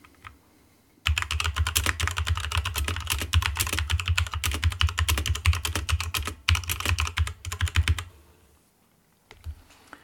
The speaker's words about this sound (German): Es folgt hier ein kurzer Audio-Vergleich der beiden Tastaturen. Zuerst die schwere Red Dragon, die alte, und dann die neue RK Royal Clutch. Die alte Tastatur.